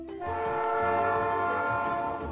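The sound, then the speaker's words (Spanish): A train on a trip into a city centre gives a steady, sustained horn-like tone with a rumbling undertone. It holds at an even level for the whole couple of seconds, with no voices. “Por la tarde fueron en autobús y en tren al centro de la ciudad.”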